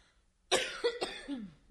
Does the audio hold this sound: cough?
yes